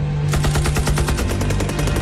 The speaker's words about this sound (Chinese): 紧接着又是一串机枪子弹贴头皮飞过